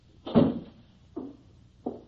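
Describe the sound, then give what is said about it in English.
A door is being closed: three soft knocks, the first fuller and louder, followed by two shorter, lighter thuds at a steady spacing. “Should I close the door? Yes, please.”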